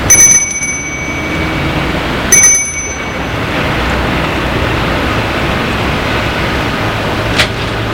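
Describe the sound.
Doorbell ringing at a house: two bright, high metallic rings, the second about two seconds after the first, over a steady broad hiss that continues to the end.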